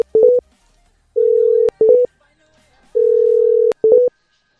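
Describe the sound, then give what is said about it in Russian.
Electronic phone tones mark a call that fails and drops at once: clusters of short mid-pitched beeps alternate with two longer steady tones, a clean, loud repeating pattern with silence between bursts. “прикиньте, звонки не проходят, и хуй пойми почему. Хуяк сразу сброс.”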